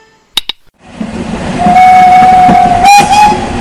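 A train locomotive: two sharp clicks, then a swelling rumble of rolling train noise with a long, steady whistle tone held over it, loud through to the end.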